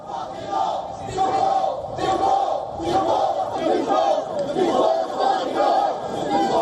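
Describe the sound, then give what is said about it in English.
A counter-protest crowd against racism, organized by Stand Up to Racism, chants in loud rhythmic unison, the massed voices rising and falling in repeated phrases throughout. “The anti-migrant rally was met by a counter-protest against, organized by Stand Up to Racism. Around three people joined that rally, chanting, "Refugees are welcome here."”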